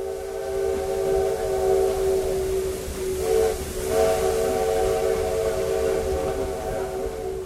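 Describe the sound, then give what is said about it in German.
A small steam train near the Brazilian town of Tiradentes blows a loud, steady, multi-toned whistle over continuous steam hiss, with a brief dip in the tone partway through before it sounds on. “Vor der geschichtsträchtigen Kostprobe steht eine kurze Reise mit einer Bimmelbahn.”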